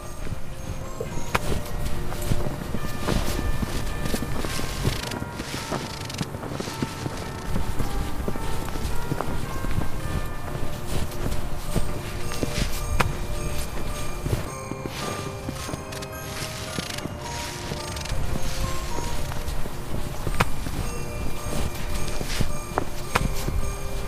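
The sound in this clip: Footsteps of two people running around outdoors on a winter evening: a long, steady stream of rapid, scuffing steps that continues throughout, mixed with music playing underneath.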